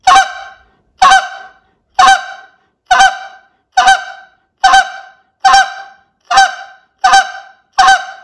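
Ten goose clucks blown on a handheld goose call while practising the spit note: sharp, bright honking notes repeated at an even, steady rhythm, each with a quick attack and a short fading tail, loud and alone.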